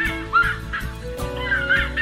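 An Ipaca'a bird calls with loud, raucous, honking cries repeated several times in quick succession.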